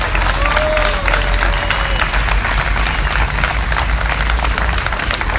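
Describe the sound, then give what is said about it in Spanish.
Audience applause at a closing event: dense, steady clapping that stays loud and even throughout, with a general crowd murmur underneath and no clear breaks. “¡Fuerte el aplauso para despedir a María Elena y a Raúl!”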